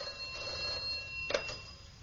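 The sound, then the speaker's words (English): A telephone bell rings, fairly faint, with a brief louder burst partway through and no voices. “Then the bloody phone again.”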